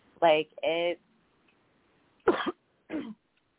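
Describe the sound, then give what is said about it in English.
A person clears their throat and coughs in four short, separate bursts in otherwise quiet surroundings. The first two bursts are voiced and the last two are rougher. “I started coughing, then I muted myself before I got started. Clear my throat.”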